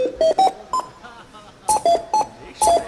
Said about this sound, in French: Et des lumières rouges s'affichent en avant de chaque caisse enregistreuse. Pour aller avec les bips.